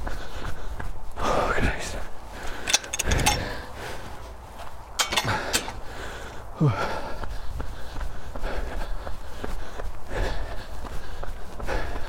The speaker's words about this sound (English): Oh God, and it's soaking. I'm running uphill.